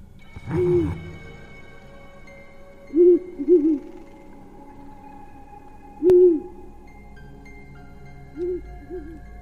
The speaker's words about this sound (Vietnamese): Thỉnh thoảng xa xa vọng lại những cái âm thanh u ám như là tiếng cú vọ kêu văng vẳng trong rừng vậy.